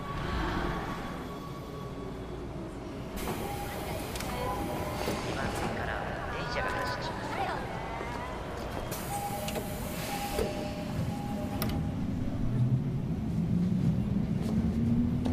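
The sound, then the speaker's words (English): A train pulls into a station, a steady broad rumble of wheels and machinery with thin squealing tones threading through it, continuous throughout and growing slightly louder toward the end. “walks towards her train as it pulls in”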